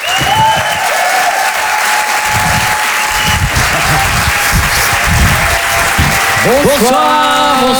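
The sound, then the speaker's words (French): Applause and cheering from a comedy club audience welcoming a comedy duo to the stage: dense, steady clapping that fills the whole stretch, with a man's voice beginning to speak near the end. “En direct et en live sur Rire et Chanson, faites du bruit s'il vous plaît pour les jumeaux”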